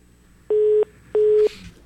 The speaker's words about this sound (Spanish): Se nos fue la llamada